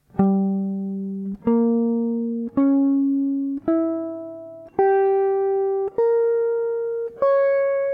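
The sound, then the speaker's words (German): A diminished arpeggio built from minor thirds rises as seven separate notes in a bare, even tone. Each note starts firmly and fades slightly before the next one steps higher, with no voices. “Was war das? Das war ein vermindertes Arpeggio, lauter kleine Terzen.”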